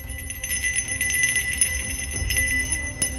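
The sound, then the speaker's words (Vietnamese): A bronze handbell, held up high, is shaken forcefully, giving sustained bright ringing tones with many irregular metallic strikes throughout. “Liền lấy từ trong túi ra một cái chuông đồng, giơ lên cao, vận lực mà lắc.”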